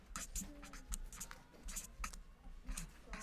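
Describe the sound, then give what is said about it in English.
Handwriting on paper as a name is written out, faint scratchy pen strokes in many short bursts with brief pauses, under soft background murmur. “I'm going to do that for you because I have to write it down.”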